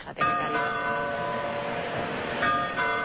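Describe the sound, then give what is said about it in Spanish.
A falling bell with its clapper striking it: a metallic ring hits sharply, sustains with dense shimmering overtones, then a second strike sounds near the end, loud and alone. “Macarena, la campana, sí. Ha caído encima de él, ¿no? Sí. Y lo malo es cómo le está golpeando el badajo.”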